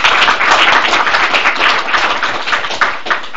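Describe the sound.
Audience applause welcoming a speaker to a meeting, with dense, steady clapping that holds at an even level for about three seconds.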